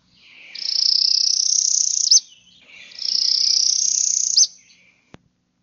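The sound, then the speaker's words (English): Two songs from a northern parula warbler. Each is a high, buzzy trill held for about a second and a half that ends in a sharp upward flick, with a short pause between them. “Northern parula warbler.”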